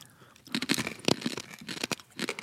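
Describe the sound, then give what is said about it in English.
Crunching of Quaker cereal being chewed: a run of crisp, brittle bursts with a few louder crunches standing out, with no talk over it. “This tastes like Captain Crunch berries. Yeah, I get that. It's a good crunch. That is a good crunch.”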